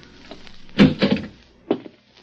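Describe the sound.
A door lock being opened with keys: a short cluster of metallic rattles and clunks, then a couple of briefer knocks, moderately loud with no voices.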